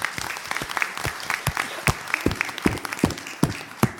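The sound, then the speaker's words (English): Clapping from an audience at a school board recognition night, many distinct, sharp claps in a loose, uneven patter that holds steady throughout. “Yay, let's clap for that”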